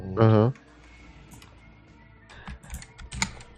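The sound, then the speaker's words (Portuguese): Typing on a computer keyboard, a quick cluster of clicking keystrokes near the end, preceded by a brief voiced sound at the start. “Deixa eu digitar.”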